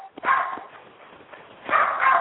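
Dogs barking, heard as a few muffled, narrow-band bursts: one bark early, a quieter stretch, then two closely spaced barks near the end.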